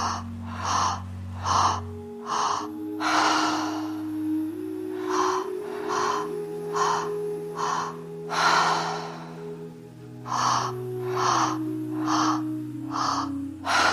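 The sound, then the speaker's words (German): Deep breathing exercise with full inhalations filling the lungs and long, drawn-out exhales, several breaths rising and falling in a steady rhythm over a soft sustained musical drone. “die Lunge komplett füllen und aus, schön lang ausatmen.”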